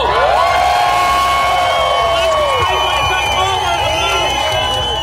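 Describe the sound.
Crowd cheering at the Glasgow Pride parade: a loud, sustained roar of many voices, with high whoops and shouts rising out of it and holding steady throughout.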